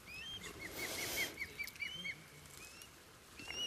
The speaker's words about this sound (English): That's the other bird calling now, so they're both hanging around.